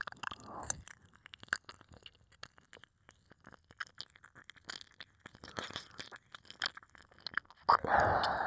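Wet ear-licking sounds: many soft, irregular smacks, clicks and slurps, faint throughout, with a louder wet burst at the start and another at the end.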